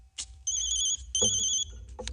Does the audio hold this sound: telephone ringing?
yes